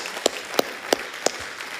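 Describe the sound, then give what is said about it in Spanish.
A church audience claps in rhythm, four sharp, evenly spaced claps standing out above a steady bed of softer clapping. “Hagamos una ofrenda de palmas.”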